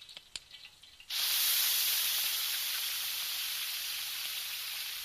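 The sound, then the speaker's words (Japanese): Meat sizzles as it is grilled in an oiled pan. A few faint taps come first, then a sudden loud hiss that holds steady. “こう入れて、では焼いていきましょう。”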